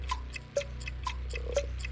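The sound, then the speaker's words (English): A game show countdown clock ticks in an even rhythm, faint and quick, with roughly eight evenly spaced ticks and no voices. “It's tough when that clock starts ticking.”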